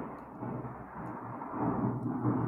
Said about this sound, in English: Oh, we heard it. Thunder, actually, I have a automatic reaction.